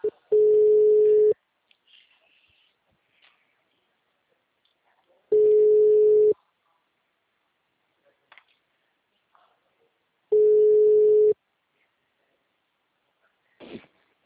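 Telephone ringing tone while a call is placed: three steady, mid-pitched tones, each about a second long, separated by roughly four seconds of near silence with faint small clicks.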